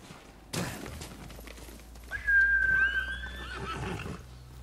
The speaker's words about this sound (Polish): Chodź koniku, gdzie jesteś? Tu jesteś.